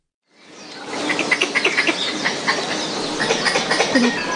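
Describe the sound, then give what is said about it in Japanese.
Squirrel call: a rapid run of many high, chattering chirps over a constant noisy hiss, moderately loud and continuous for about four seconds. “あ、これですね。これリスの鳴き声。”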